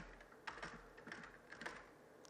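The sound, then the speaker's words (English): Keys tapped on a computer keyboard while a password is typed in, a quiet, uneven run of soft clicks with a few slightly sharper strokes. “So we're just going to type the password.”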